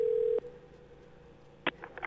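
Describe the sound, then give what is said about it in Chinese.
A telephone dial tone while placing a call: a steady, loud pitched hum that cuts off after a fraction of a second, then quiet line noise and a few short clicks and faint tones. “我电话拄只有甲留起来，我来甲卡一下，互大家听看咧。”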